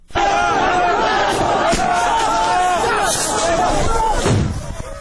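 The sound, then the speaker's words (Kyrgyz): Migrants shouting at the Greek–Macedonian border crossing gate amid tear gas and stun grenades, many raised voices overlapping in a loud continuous clamour that tails off at the end. “Чек араны аш деп кыйкырган мигранттар Македон полицейлерине да таш ыргызышты.”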